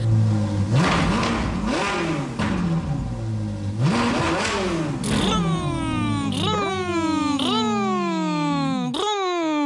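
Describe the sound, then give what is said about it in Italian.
A vocal imitation of a bus engine for a children's song: loud, buzzy vroom sounds that rise and fall in pitch again and again, like an engine revving. “Allora, come fa The Motor on the Bus, il motore del bus?”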